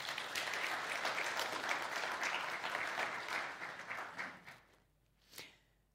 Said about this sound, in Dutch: Dus misschien kan er wel een klein applausje af voor de kids.